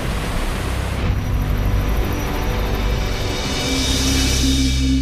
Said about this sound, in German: der Rheinfall von Schaffhausen. Der größte Wasserfall Europas.